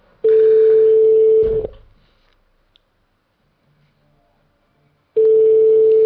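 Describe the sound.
Telephone ringback tone while placing a call: a steady single-pitched tone sounds for over a second, stops for several seconds of near silence, then starts again. Loud and clean, with no voices.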